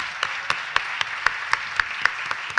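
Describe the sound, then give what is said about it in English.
An audience applauds the guests at a live event, with a steady wash of clapping and regularly spaced sharper claps standing out above it. “Could we please give them a hand?”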